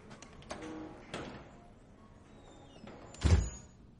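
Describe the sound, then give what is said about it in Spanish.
A key unlocks an observation booth door, which then opens: faint clicks and light rattles, then a single dull thud near the end, all fairly quiet. “saca una llave y abre la puerta de la cabina de observación”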